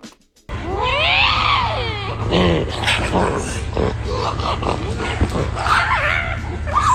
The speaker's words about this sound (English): Not a raccoon, not a monkey of any kind, not a primate of any kind. We've had guests for a cat. It is a kind of cat. It's like a big cat.